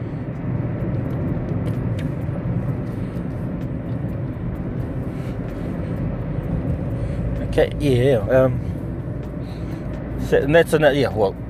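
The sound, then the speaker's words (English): Steady low engine and road rumble inside a moving car in heavy traffic continues throughout, with a voice talking briefly near the end. “It's just concentrating on the road. There's a lot of traffic at the moment”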